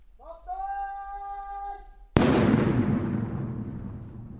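Controlled demolition blast of a TM-46 anti-tank mine: one sudden, very loud explosion followed by a long, gradually fading rumble, preceded by a drawn-out tonal sound.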